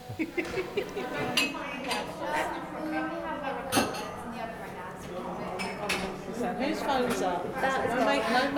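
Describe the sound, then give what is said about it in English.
Utensils and dishes clink as cake batter is scooped into paper cases, giving many light metallic taps and chinks under a steady murmur of voices. “We've just finished making all the batter, and we've just scooped them into the cases, and they're just about to go into the oven”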